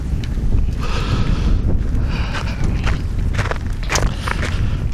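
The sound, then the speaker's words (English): Footsteps crunch on snow lying over cracking ice while wind gusts. Many gritty steps and cracks sound over a constant, loud rushing of wind. “Facing the other way and the wind's kicking up, and I'm walking on snow over ice that's cracking underneath.”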